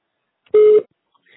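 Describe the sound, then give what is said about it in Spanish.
Voicemail recording tone: a single short, steady mid-pitched beep, clean and alone, with silence before and after. “Por favor, grabe su mensaje después del tono. Al terminar, presione el símbolo de número.”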